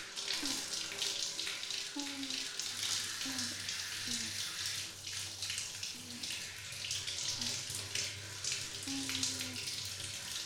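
Running tap water while hair is rinsed and shampoo washed out, a dense, continuous splashing hiss at an even level throughout.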